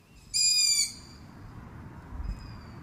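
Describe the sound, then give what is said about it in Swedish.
Young long-eared owls call for their parents. One loud, high, squeaky drawn-out call is followed by a much fainter one, both above a low, rumbling background. “Ja, det är nog hornuggleungar som sitter utspridda i en skogsdugge och ropar på sina föräldrar.”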